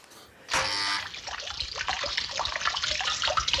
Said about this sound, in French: dont Madame Harpel est si fière, avec sa fontaine poisson qui lance son jet d'eau